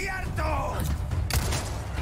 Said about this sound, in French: Oh, j'ai tiré sur la roquette. En plein vol. Incroyable.